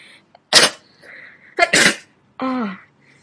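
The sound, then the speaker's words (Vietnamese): A woman sneezing a few times in quick succession, each sneeze a sharp, loud burst separated by short pauses, the last one more drawn out and voiced. “Cô liên tục hắt hơi vài cái.”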